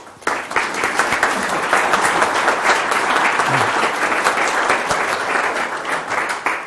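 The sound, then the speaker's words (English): A crowd applauds loudly to welcome a speaker, clapping that starts suddenly and stays dense and even throughout. “So I'd like you to put your hands together and welcome Tony Hodgson.”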